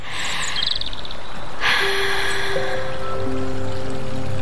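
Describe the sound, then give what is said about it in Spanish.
Creek water flows steadily as a bare toe is dipped in, a constant bright rush with a few high chirps and sustained tonal notes above it. “Ese momento en que te descalzás, metes un dedo en el arroyo y”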